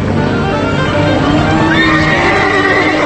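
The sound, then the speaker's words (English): A spooked horse whinnies and bucks beside a herd of cattle, its high whinny rising out of a dense, loud, continuous wash of noise that fills the whole moment. “Something spooks Sam's horse and the animal bucks.”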